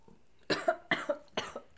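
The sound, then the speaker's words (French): Three quick bursts of coughing, each a harsh double cough, one following another in a rapid, irregular rhythm, loud against a quiet background. “Bah, ça fait tousser. Ah, ça fait tousser”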